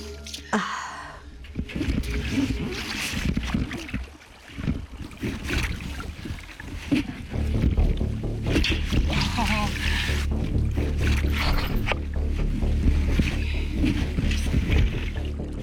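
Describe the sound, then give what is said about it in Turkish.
A small boat is lowered into water and someone climbs in: wind buffets the microphone over splashes, knocks and hull bumps, with a voice heard at times. “Şimdi suya indireceğim. Yüzüyor. Tamam, yüzüyor. Biniyorum.”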